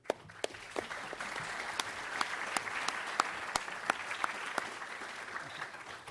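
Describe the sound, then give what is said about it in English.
An audience at a memorial lecture applauds to welcome a speaker to the stage, a dense, steady patter of many hands clapping at an even level throughout. “I'm very pleased to welcome him to the stage now. Let's give him a hand.”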